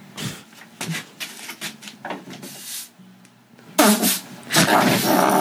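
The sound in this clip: Farting sounds from an online video being played: several short, uneven bursts, followed by a louder, rougher stretch of noise near the end.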